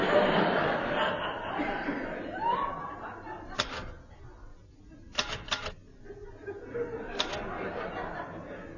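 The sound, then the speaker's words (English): Typing on a typewriter while wearing gloves: a few sharp, scattered key strikes at uneven intervals, after people talk and chuckle at the start. “I like typing in gloves. Lots of people type in gloves.”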